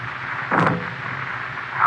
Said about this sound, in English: Here you are, Whitey. Use this silencer. Go ahead. No, don't shoot.